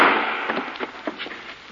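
Gunshot sound effect in a 1940 radio drama of The Shadow: a single sharp crack at the start that decays away, followed by a few faint crackling ticks.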